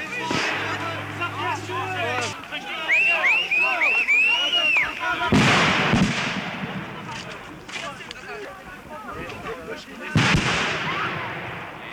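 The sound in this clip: Sharp bursts of gunfire or explosive shots at an anti-nuclear protest, where demonstrators face a riot-police barricade about 800 metres from a nuclear power plant. Two loud, broad blasts stand out over a noisy, shouting crowd.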